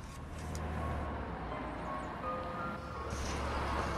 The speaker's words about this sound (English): The driver pulls away.